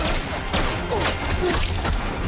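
Gunfire exchanged between a shooter and guards at the edge of trees by a field, with many shots cracking and thudding in quick, uneven bursts.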